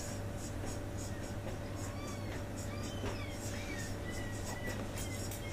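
Faint scratching strokes of writing as logical notation is written out, many short scraping marks over a steady background hum.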